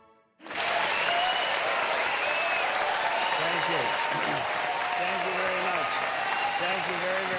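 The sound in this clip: An audience breaks into loud, sustained applause welcoming Ben Stein. A dense wash of clapping rises sharply and holds steady, with a few voices calling out beneath it.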